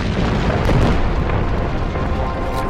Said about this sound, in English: A rebel fighter filmed one of the barrel bombs exploding just 100 yards from where we were.